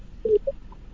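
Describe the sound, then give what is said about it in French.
A phone call reaching voicemail gives a few short, faint electronic beeps of differing pitch in near silence. “Malheureusement, il est allé au répondeur. On va essayer de rappeler M. Richard.”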